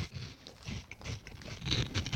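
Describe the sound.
Crunchy fried onion rings being bitten and chewed, a few faint, crisp crunches in short bursts, quiet and alone without talk.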